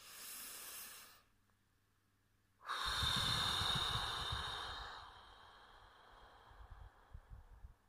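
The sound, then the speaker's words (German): Slow, airy breaths during a guided breathing exercise: a short soft breath, then after a quiet pause a longer, fuller and louder one with a hissing, breathy texture. “Und einatmen, zwei. Und einatmen, eins.”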